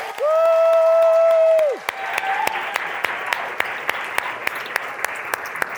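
A church audience cheers on its children's ministry volunteers, opening with a loud, sustained whistle followed by lively applause and crowd noise, with sharp individual claps standing out.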